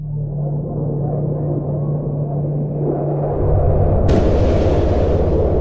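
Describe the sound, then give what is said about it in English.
Sonic boom from a supersonic plane passing overhead: a steady low rumble deepens and swells, then a sudden broad, cracking burst breaks in near the end and lingers loudly. “a loud crack. It's heard as a sonic boom, as though something huge has been broken.”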